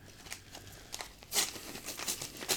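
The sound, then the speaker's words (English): Packaging crinkles and tears as a small square box is ripped open: faint, scratchy rustling in short bursts, growing a little louder toward the middle and the end. “All right, let's just rip this guy open here.”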